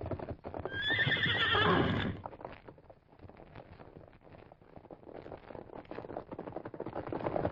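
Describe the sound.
A horse neighs loudly in a long, shrill whinny, then breaks into galloping hooves that clatter in a quick, continuous rhythm until the end.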